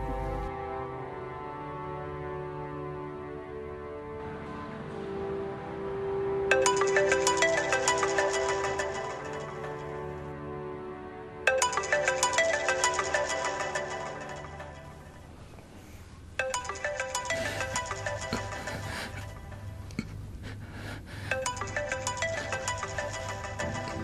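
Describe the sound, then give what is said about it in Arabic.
A phone rings at night as a father calls his son, playing a repeating electronic ringtone melody in loud bursts with brief gaps between them. “وبليلة من الليالي صارت شغلة غريبة عجيبة، بابا اتصل بشهرام.”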